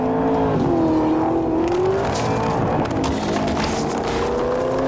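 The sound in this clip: A car engine drives down a tarmac street with patches of grass, in pursuit of running deer: a loud, continuous engine drone whose pitch drifts gently up and down, with no voices.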